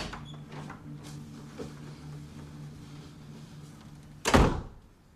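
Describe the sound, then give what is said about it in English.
A door is carefully shut: a single dull thunk near the end breaks a long quiet stretch of low, steady hum. “He comes past her on his way back to his room, carefully shutting the door behind him.”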